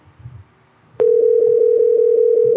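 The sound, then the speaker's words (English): A telephone dial tone sounds as a call is placed. After about a second of faint low noise, a steady, loud tone starts and holds one constant pitch to the end, with soft regular pulsing. “Let's get Crawford back on the phone.”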